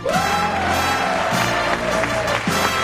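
Studio audience applause and cheering welcomes home repair television host Bob Vila, a steady, dense wash of clapping lasting about three seconds, with sustained tonal sounds running beneath the crowd noise.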